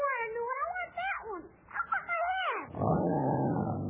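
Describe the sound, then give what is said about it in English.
A lion growls while chewing on a hat that blew into its cage. A run of wavering, whining cries rises and falls, then breaks into a rough, loud, sustained growl for the last second. “Hey, Joy, look. The lion is chewing on your hat.”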